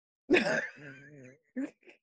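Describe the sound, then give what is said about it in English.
A person yawns: a breathy opening gives way to a drawn-out, moaning voiced tone, followed by two short, fainter vocal sounds. “You just yawned into people's ear.”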